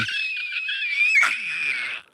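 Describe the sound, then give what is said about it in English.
A person screams as hard as they can after pushing out every bit of breath: one long, high, strained cry held for about two seconds, swelling midway, then cutting off abruptly into silence. “Is that you trying to scream as hard as you can?”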